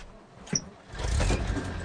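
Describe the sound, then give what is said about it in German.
A fishing boat's six-cylinder, 200-horsepower turbodiesel engine starts on the lake at Hallstatt before dawn. A brief click is followed by the diesel catching into a low, rumbling roar that holds steady. “So, werden wir unseren Kahn starten.”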